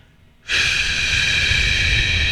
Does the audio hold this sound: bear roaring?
no